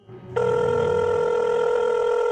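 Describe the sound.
A telephone rings with a steady electronic tone. It starts after a short low rumble and holds at an even level to the end, with no voices.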